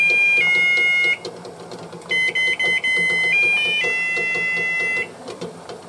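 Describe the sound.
Musical egg timer playing its melody for a soft-boiled egg: bright electronic beeping notes step up and down in three short phrases separated by brief gaps, over low background noise.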